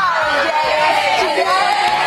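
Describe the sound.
A crowd cheering holiday greetings from Cooperstown, with continuous loud whoops and shouts from many voices that run without pause through the whole clip.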